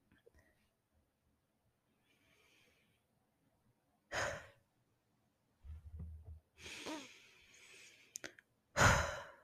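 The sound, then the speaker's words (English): Slow, soft breathing closes a meditation: a few quiet, drawn-out inhales and sighing exhales spaced several seconds apart, faint and unhurried, with no words spoken. “let's leave this episode with a few breaths.”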